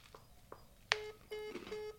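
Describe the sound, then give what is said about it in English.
Electronic keypad tones sound as a number is dialed on an iPhone. A few quiet taps lead to a sharp beep, then a longer, steady tone with brief breaks, all faint. “On my iPhone, other smartphones are available. I'm dialing...”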